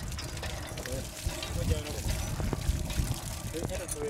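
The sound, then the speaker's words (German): Water pours from the spout of a newly drilled village well's hand pump, a steady splashing, gurgling flow with uneven surges that continues throughout at moderate loudness. “Das Wasser fließt im Rhythmus der Pumpstöße aus dem Ausguss”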